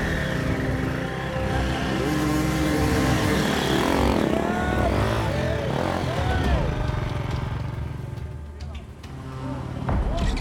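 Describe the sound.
A motorcycle engine revs unevenly as two riders wrestle their bike through woods during a race, its whine rising and falling in bursts beneath a talking voice.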